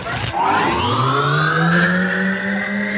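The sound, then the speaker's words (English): An engine-like start-up whir marks a studio mixer being fired up. A short noisy burst opens it, then loud whining tones climb steadily and hold, with no talk. “All right, Grant, stand back. I'm going to fire up the mixer okay.”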